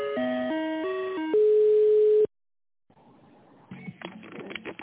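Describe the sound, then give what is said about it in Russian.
Electronic telephone tones play while a call is transferred to an internal extension: a series of steady tones stepping up and down in pitch, then one long, louder steady tone. A short silence follows, then faint line noise. “Перевод звонка на внутренний номер 500. Минуточку.”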